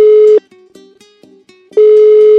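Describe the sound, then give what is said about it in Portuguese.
A steady, loud telephone tone sounds as a call is placed. It breaks into a series of short, quieter tones at slightly shifting pitches, then the steady tone resumes. “Vamos ligar agora pra uma daquelas pessoas? Pode selecionar o número que você quiser, ó.”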